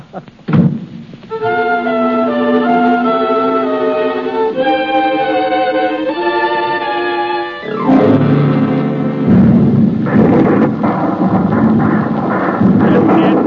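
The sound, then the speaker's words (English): Artillery barrage effect in a 1937 radio drama adaptation of A Farewell to Arms: a thud, then a sustained tonal drone, giving way to heavy, loud rumbling bursts. “But they lay down the barrage. It isn't going to harm us any.”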